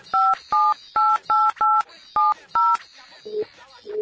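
Telephone keypad tones as a number is dialed: seven evenly paced, loud two-tone beeps over about three seconds, followed by a few quieter, lower tones.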